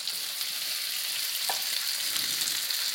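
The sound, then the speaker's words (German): Steady sizzling of peppers frying in a pan as rice goes in, a continuous bright hiss running the whole time with one brief soft knock near the middle. “die Paprika kriegt schon schöne Farbe. Somit kann ich auch gleich den Reis wahrscheinlich schon mal damit reinmachen. Das mache ich jetzt auch schon mal.”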